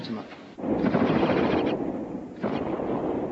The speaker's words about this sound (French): Et le personnage de Crazy Ivan est un type, un russe, qui pilote un power suit de 40 pieds et qui traverse les arènes tout en mettant à feu ses ennemis.